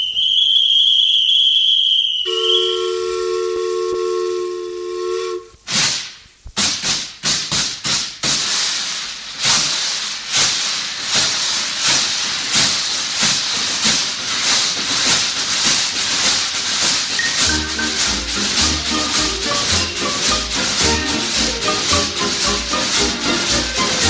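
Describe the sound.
Steam train pulling into a station: steady whistle-like tones open, then a loud burst of hissing steam gives way to many rhythmic chuffs and hisses that carry on to the end.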